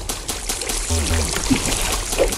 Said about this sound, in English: I thought pouring water on the fire stopped bombs.